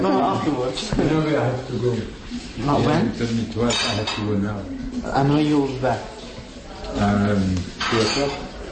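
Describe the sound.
Dishes and cutlery clink and chink during a lunch, light scattered clatter of plates and silverware under continuous talking.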